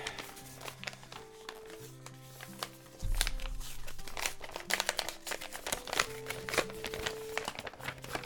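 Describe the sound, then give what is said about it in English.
Crinkly rustling and tearing of paper as a Save the Manatee Club envelope is opened, in irregular bursts over soft background music. “So I wanted to open my official Save the Manatee envelope on air with you right now. Here we go.”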